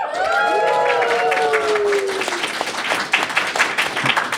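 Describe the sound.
Applause from a live audience: dense, steady clapping mixed with crowd noise that continues throughout, with a voice rising over the first couple of seconds.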